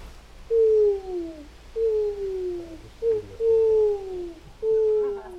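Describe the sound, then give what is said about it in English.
A human voice imitates an owl hoot, used by a forest walk guide to call a group back. Five smooth, tonal hoots each slide downward in pitch, steady and fairly loud, with brief pauses between them. “So usually I call you back with an owl hoot. And it sounds like this.”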